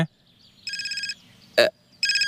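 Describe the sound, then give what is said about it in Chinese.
A telephone ringtone sounds in two bursts of rapid, evenly pulsed electronic trilling, with a short, loud noise burst between them and no talk. “我接个电话啊”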